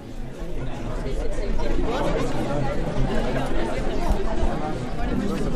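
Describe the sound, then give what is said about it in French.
Morning ambience at the Feltin market: a steady babble of many overlapping voices and general bustle, moderately loud and unbroken throughout. “Oh, mais quel est ce bruit ? Eh oui, nous avons un retour du marché de Feltin de ce matin.”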